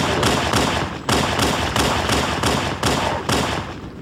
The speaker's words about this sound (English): It's a pistol from a Halo game. But which Halo game? But which Halo, I'm not sure. I just love that clip because you have the pistol and then you have like the slight like elite grunt right at the end.